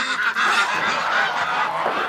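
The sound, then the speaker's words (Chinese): Goose honking from a goose that heads into a river by itself in the morning; harsh, nasal, loud calls run almost continuously and overlap through the whole stretch. “这鹅一洗澡可白了，今天早上起来一开门自己就下河了。”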